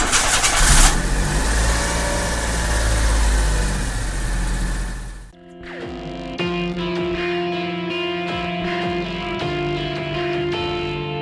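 A car engine turns over and runs with a dense, rumbling roar for about five seconds, then cuts to steady sustained tones.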